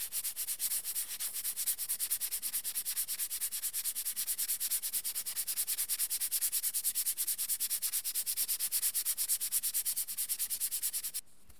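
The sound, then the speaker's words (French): A lacquerer rubs white polishing paste onto a lacquered bracelet, producing fast, even, hissing strokes in a steady rhythm that runs for about eleven seconds before stopping abruptly. “Et donc, je vais venir appliquer la pâte sur le bracelet. Et ensuite, je vais frotter.”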